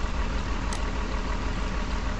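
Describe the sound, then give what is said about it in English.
Steady droning rumble of a submarine's diesel engine in a video game, a continuous, even mechanical noise with no breaks and no voices. “Now I'm going to push E to switch to my diesel engine. E. Using diesel. So we'll go a little faster.”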